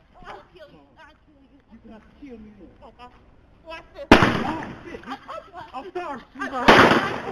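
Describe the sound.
Gunshots ring out as two sharp, loud blasts, one midway and one near the end, breaking over ongoing talk between people.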